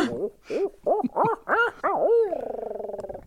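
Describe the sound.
Owl hooting: a loud, rhythmic run of rounded, arching hoots ends in a long, drawn-out hoot that wavers and trails off, with no other sounds.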